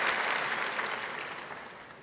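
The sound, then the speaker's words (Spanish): Congregation applause during a church service, a soft, dense patter of many hands clapping that starts full and gradually thins and fades across the short clip. “Dar un aplauso a Jesús.”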